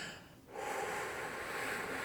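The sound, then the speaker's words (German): A long, slow exhale, demonstrated as a calming breath for shortness of breath: a steady, breathy rush of air that begins after a brief quiet moment and carries on evenly to the end. “was ich dann zum Beispiel mache, ist, ich atme dann ganz lange aus”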